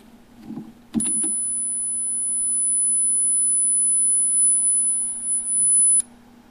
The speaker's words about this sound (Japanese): では、最後に1万ヘルツ、つまり 10kHz の音を再生してみます。